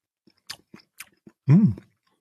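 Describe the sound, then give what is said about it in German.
Someone bites into and chews Jolly Eggnog cake. A few soft, sharp chewing clicks are followed by one louder, longer burst, with silence in between. “Es handelt sich um Jolly Eggnog. Oh, das ist neu. Eierpunsch. Eierpunschkuchen. Ich probiere mal.”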